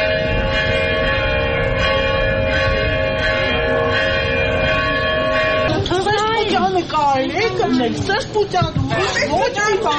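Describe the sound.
Church bells ring repeatedly from a church opposite a diocesan headquarters during a police operation, a sustained, layered bell tone that carries on for several seconds before speech takes over, with chatter beneath.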